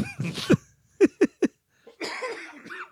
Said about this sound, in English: got me fucking coughing again.